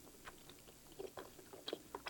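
Soft, wet chewing on a big piece of cheese, with faint irregular mouth clicks and smacks at low volume and no talking.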